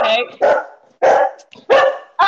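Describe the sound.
A dog barks repeatedly during a video call, a run of sharp, loud barks in separate bursts with short gaps between them.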